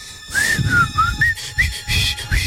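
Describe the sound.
A person whistles alone in bright, wavering high phrases that rise and fall in short bursts, fairly loud above a low background rumble.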